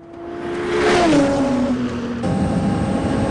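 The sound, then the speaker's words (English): A car speeding past during a chase, its engine roaring loudly as it passes, with the pitch dropping sharply, then continuing to drone on after it goes by. “He helps her to his car as Brian speeds past them.”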